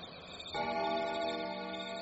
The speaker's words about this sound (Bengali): অনেক দূর থেকে আসা একটা বড় ঘড়ির আওয়াজে বোঝা গেল রাত ৩টে বাজল।